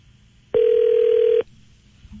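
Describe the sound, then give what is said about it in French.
A single sustained telephone tone, about one second long and loud, as a call is placed, with quiet background before and after. “on compose, ça va sonner.”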